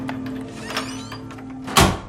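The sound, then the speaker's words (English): An apartment door is unlocked and opened, ending in one loud thunk near the end over a steady low hum. “He unlocks the door and goes inside.”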